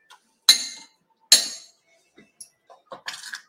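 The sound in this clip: A spoon clinks while scooping thick cumin-spiced soup: two sharp, bright clinks are followed by several lighter taps and small knocks, heard alone without talk.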